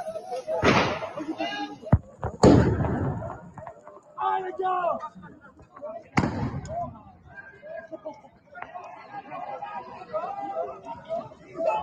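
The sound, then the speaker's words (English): Police firing rubber bullets at protesters: a few sharp, loud bangs break through ongoing talking and crowd chatter, with quieter stretches of voices between the shots. “The cops are shooting rubber bullets at the protesters.”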